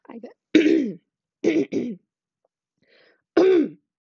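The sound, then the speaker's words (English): Phlegmy throat clearing repeats in a few short, gruff voiced bursts, two of them close together, separated by silence. “Just so phlegmy. That, or is it just me? Is it just me? Oh, I'm a throat clearer. I'm a throat clearer.”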